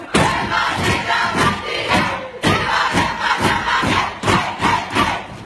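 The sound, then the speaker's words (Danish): The Danish women's national football team cheers in the locker room: loud, rhythmic group chanting punctuated by thudding beats, with a short break partway through before the chant resumes at full force. “Det er altid fedt med noget godt humør fra omklædningsrummet. Jo, i særdeleshed, når det lyder sådan her.”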